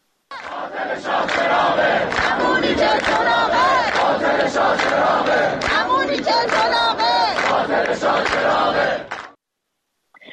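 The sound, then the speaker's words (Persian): Students of the Tehran University engineering faculty chant slogans together: a loud, dense crowd of voices in rhythmic unison that holds steady for about nine seconds, then cuts off abruptly. “و دانشجویان دانشکده فنی تهران هم از جمله شعار سر دادن که شاه چراغ رکس دیگه است، اینم یه نیرنگ دیگه است. بشنویم صدای دانشجویان دانشکده فنی تهران رو.”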